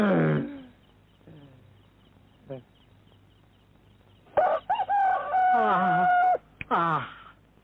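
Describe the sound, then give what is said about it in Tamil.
A rooster crows in one long, loud, wavering call lasting about two seconds. Brief voices come before it, and a shorter call follows. “மனுஷன் தான் 8 மணிக்கு எழுந்திருக்கிறான், சேவல் கூட 7 மணிக்கு தான் எழுந்துச்சு கூவுது.”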